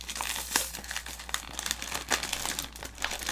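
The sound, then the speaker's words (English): A sticker is ripped off a new snack pack with crinkly plastic tearing and crumpling. It comes as a burst of sharp rustles over a few seconds. “it even comes with a cool sticker that you gotta rip fucking to shred. There it goes.”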